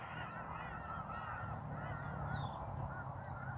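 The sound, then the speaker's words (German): Birds call in the background, faint honking and chirping scattered over a steady bed of low noise, with no speech. “Du hörst die Vögel im Hintergrund, stimmen mir zu bei dem, was ich sage”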